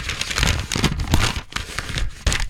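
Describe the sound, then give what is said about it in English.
Crinkly paper rustling as an envelope is handled and opened at a music award announcement, an irregular crackling and rubbing that runs steadily for about two and a half seconds, with a sharper burst near the end. “Oh, I was just handed this envelope. Somebody said, read this immediately.”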